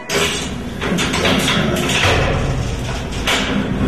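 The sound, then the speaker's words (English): Vault door opening sound effect: heavy mechanical thuds and taps over a dense, grinding rumble that runs continuously and loudly for about four seconds. “That unmistakable sound you hear is the sound of our vaults are opening.”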